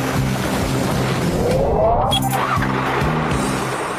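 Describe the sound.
An engine starts up in an animated children's show: a steady low rumble runs throughout, with a brief whining sweep in the middle.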